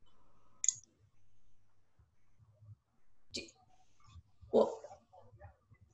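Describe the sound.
Computer mouse clicking, heard as a few faint, sharp, brief clicks spaced irregularly apart over quiet, low background noise.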